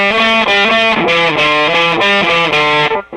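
An electric guitar plays a lead tone through a fuzz pedal, thick and heavily saturated, with loud sustained notes in a repeating melodic phrase that cuts off abruptly near the end.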